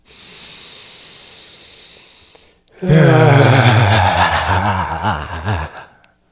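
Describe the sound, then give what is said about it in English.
A deliberate, loud voiced exhale during a breathing exercise follows a faint breathy hiss. The sounded breath out lasts about three seconds with a wavering, sigh-like tone before it stops abruptly. “And this next exhale, really make sound.”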